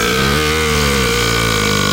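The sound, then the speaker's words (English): A long, loud burp: one continuous, low, rough belch that carries unbroken through the whole clip, with no voices around it. “In fact, we had an actual burp on card here.”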